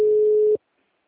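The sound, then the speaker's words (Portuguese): A telephone tone heard after a dropped call. A single steady, mid-pitched beep holds for about half a second, then cuts off into silence. “Caiu de novo e tá chamando.”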